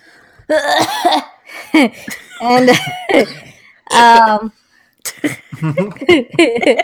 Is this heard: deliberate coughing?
yes

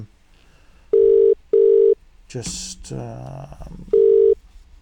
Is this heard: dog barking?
no

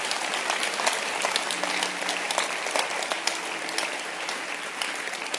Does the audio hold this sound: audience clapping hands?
yes

